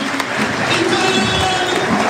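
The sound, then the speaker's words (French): A home stadium crowd at a Laval football match applauds a substituted young player, with steady, dense clapping and crowd noise that holds at an even loudness throughout. “Très applaudi aussi par le public de Le Basser et c'est mérité, ouais, mérite, pour Mathis Oudéyé que l'on reverra certainement l'année prochaine sous le maillot tango. Très très applaudi.”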